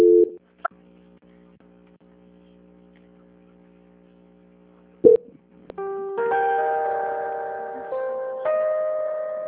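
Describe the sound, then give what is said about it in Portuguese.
Telephone transfer tones as a bank call is passed to the audit department: a short beep, a long low steady tone, a sharp click burst, then bright sustained multi-note tones in two stepped stretches. “Vou pedir para a senhora não desligar que eu vou transferir, tá? Para a auditoria. Então, ok. Transferência.”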